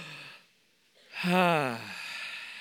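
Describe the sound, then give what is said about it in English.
A group exhales a deep, audible breath together during a guided breathing exercise, a long breathy sigh with a voiced, wavering tone that swells and then fades after a brief quiet intake. “I want you to take a couple of deep breaths, okay? So do this.”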